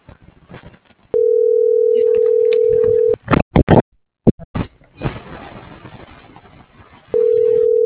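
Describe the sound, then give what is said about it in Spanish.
A telephone line rings after dialing, with two long, steady ringback tones separated by a stretch of short noisy bursts and clicks. “Ya, ahí está marcando.”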